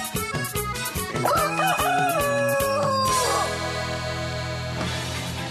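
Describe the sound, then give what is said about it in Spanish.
A rooster crows once in a long, wavering call over an upbeat dance track with a steady beat, used as a morning wake-up; the music carries on alone after the crow. “les doy la bienvenida con este gallo”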